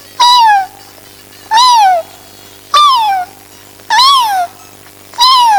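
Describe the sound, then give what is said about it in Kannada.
A kitten meows five times at a slow, even pace. Each cry is loud and high-pitched, rising briefly before sliding down in pitch, with quiet gaps between. “ಬೆಕ್ಕಿನ ಮರಿಯ ಕೂಗು.”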